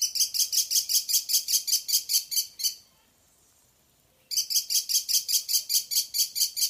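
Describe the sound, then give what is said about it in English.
Kestrels calling in rapid, evenly spaced, high-pitched bursts, many calls in a loud run that breaks off into a short pause before a second run resumes at the same pace. “And listen to that. Here comes some kestrels right now.”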